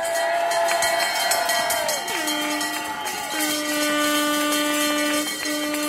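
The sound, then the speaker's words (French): Crowd noise from about 200 protesters gathered outside a prefecture over schooling in the Jura, a continuous din carrying sustained tones that step down in pitch twice. “Les différents interlocuteurs qui prennent la parole depuis tout à l'heure, devant la préfecture, avec à peu près bien 200 personnes rassemblées”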